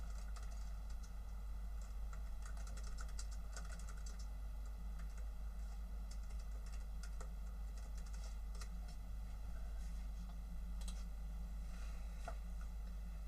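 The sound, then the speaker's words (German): Someone types an answer on a computer keyboard, producing a long run of faint, rapid key clicks in irregular bursts over a steady low hum. “Ich schreibe die Antwort an”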